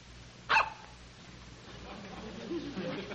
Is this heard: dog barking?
yes